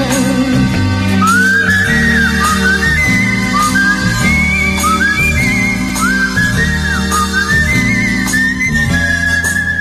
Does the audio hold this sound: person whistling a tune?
yes

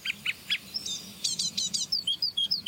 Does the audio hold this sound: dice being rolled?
no

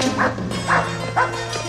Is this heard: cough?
no

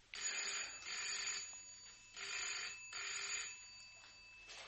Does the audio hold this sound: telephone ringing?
yes

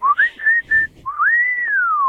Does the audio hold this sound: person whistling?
yes

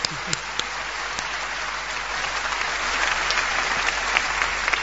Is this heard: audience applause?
yes

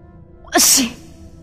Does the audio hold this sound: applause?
no

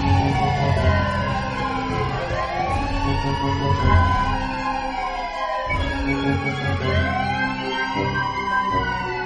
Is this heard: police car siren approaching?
yes

